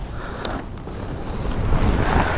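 Strong wind roaring across the microphone, a steady low rumble and buffeting that grows louder toward the end, with no voices.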